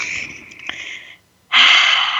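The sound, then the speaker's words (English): A deep breath drawn in during a guided group breathing moment: a soft, airy inhale, a brief silence, then a stronger, louder rush of breath that holds steady to the end. “Let's breathe that in.”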